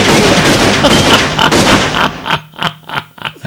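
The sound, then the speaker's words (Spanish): Gunshots fired into the air in celebration: a loud, dense crackling volley of gunfire, followed by a few sharp, separate shots with short gaps between them. “En todo caso, hay que celebrar pues con unos tiros al aire, ¿no?”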